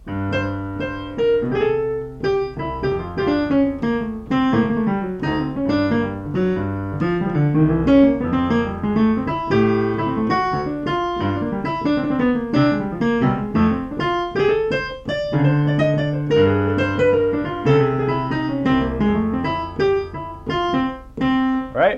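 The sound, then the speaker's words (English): Solo jazz piano plays bebop lines over two-five chord changes: a steady stream of quick single notes weaves above lower chord stabs, with no voices, for about twenty seconds. “if I'm going to play bebop, right? You know, it's going to sound something like this. I'll just play two fives,”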